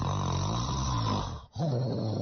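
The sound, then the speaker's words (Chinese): Loud snoring at night, a continuous rough rumbling drone with a thunder-like heaviness that drops out briefly near the end before resuming just as loud. “这呼噜打的跟打雷似的。”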